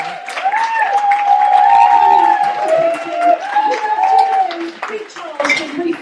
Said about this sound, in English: Will you please give her an enormous round of applause?